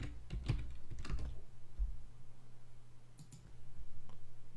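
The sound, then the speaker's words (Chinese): Typing on a computer keyboard into a web browser, with quick, soft clicks coming in short bursts and pauses. “好，我们随便打开一个浏览器，好吧？打开浏览器之后，我们输入极思路，”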